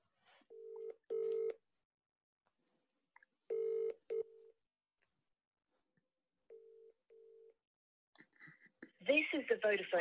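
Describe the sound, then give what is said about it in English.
Ringback tone of an outgoing mobile phone call: three evenly spaced double rings, each a pair of short mid-pitched buzzes separated by silence, before a voice starts speaking at the end. “That didn't ring fully. She didn't answer that. That wasn't all of the rings.”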